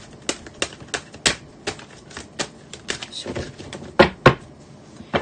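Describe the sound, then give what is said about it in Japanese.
Oracle cards being shuffled give many sharp snapping clicks in an uneven rhythm, a few louder than the rest, with no talk. “カード今切ってますのでお待ちください”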